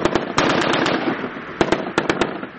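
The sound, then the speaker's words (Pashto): Commandos fire light and heavy weapons in a military exercise in mountainous terrain in Kandahar. Rapid shots crack in two loud bursts, separated by a rumbling lull, over a continuous background roar. “د خپل ځواک شودنی په موخه د سپکو او درنو وسلو تمرینونه ترسره کوي”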